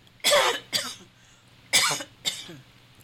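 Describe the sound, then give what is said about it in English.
A person coughs after choking: four harsh coughs in two pairs, with a short gap inside each pair and a longer pause between them. No speech is heard. “Got choked. Excuse me.”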